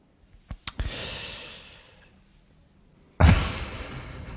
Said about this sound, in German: Ja, so, jetzt öffne ich den Umschlag.